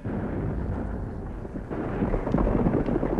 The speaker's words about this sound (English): That's it. They blasted through.